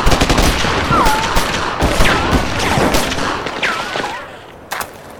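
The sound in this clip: Rapid gunfire from several weapons in a dramatic shootout, many sharp cracking shots in quick bursts with whining ricochets between them.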